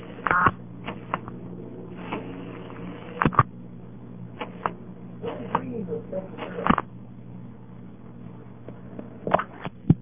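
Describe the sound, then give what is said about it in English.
Many sharp, irregular clicks from telephone exchange switching gear after a three-digit number such as 111 is dialed, heard over a narrow, muffled phone line above a steady low hum. “to make a little click like that if you dial 111 or certain other three-digit numbers”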